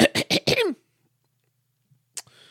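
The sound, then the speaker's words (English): A voice imitates a ferret clearing its throat with four quick, rough, loud bursts in a row. Near-silence follows, then one faint short sound. “So the ferret laboriously gets up from its curled spot on the deck, and it clears its ferrety throat.”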